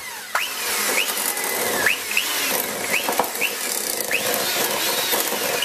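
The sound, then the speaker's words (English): An electric mixer beats soft butter for a butter frosting, a steady buzzing whir with recurring short whiny sweeps in pitch as the beaters work through the butter. “So throw in about 70 grams of nice soft butter and beat with a mixer until pale.”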